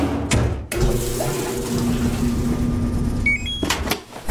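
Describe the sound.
A large-capacity washing machine fills with water on laundry day: a steady rushing flow with a low hum runs for several seconds, with short breaks near the start and the end.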